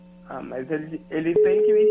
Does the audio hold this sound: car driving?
no